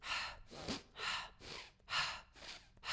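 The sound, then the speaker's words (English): Quick, deep breaths in a breathing exercise, inhaling through the nose and exhaling through the mouth, repeated about six times in a steady rhythm of rushing, airy bursts. “it was like 30 quick deep breaths, inhaling through your nose and exhaling through your mouth, like this”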